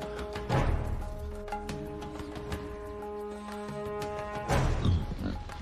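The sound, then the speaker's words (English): A wild boar grunts in a forest clearing: two rough, low grunting bursts, one near the start and one near the end, over a steady tonal hum. “The lead hunter spots a wild boar in a clearing and creeps towards it.”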